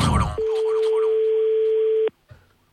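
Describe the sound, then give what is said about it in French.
A steady telephone tone sounds after a call is hung up on by a computer: one even, mid-pitched hum that holds unbroken for under two seconds, then cuts off abruptly and is followed by a brief faint rustle. “Ah non, mais tu vas voir, je vais me faire raccrocher au nez par un ordinateur.”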